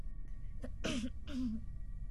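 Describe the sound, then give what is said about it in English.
Throat clearing by a person steadying themselves before speaking: two short, raspy, voiced bursts with a brief pause between them, moderately loud over a low background hum. “I cleared my throat.”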